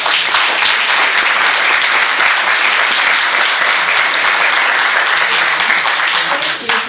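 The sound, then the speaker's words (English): Loud, sustained applause from an audience welcoming a guest speaker at an event in Salt Lake City. Many hands make a dense, steady clatter that fills the whole stretch without a break. “I just would love you to give Elaine Stout a hand and welcome her to Salt Lake City.”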